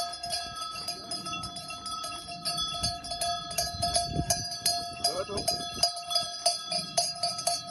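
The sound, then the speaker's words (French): Many small sheep bells jingle and clink without pause as a flock of ewes walks through town streets, over a steady tonal ring, with soft irregular knocks underneath. “Alors ce tintement de clochettes, c'est le bruit de vos brebis, le jour de la rentrée dans les rues de la ville où vous vivez.”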